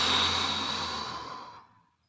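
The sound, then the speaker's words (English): A deep exhale during a breathing exercise: one long, breathy rush of air that slowly fades out over about two seconds. “Let me do it right now. Maybe you can do it with me. Inhale. Deep inhale and exhale.”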